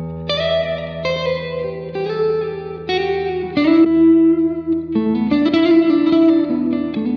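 Electric guitar chords ringing through Fender reverb pedals, played first with the 63 setting and then switched to the 65; each strummed chord blooms into long, washy reverb tails, loud and steady, with no talking.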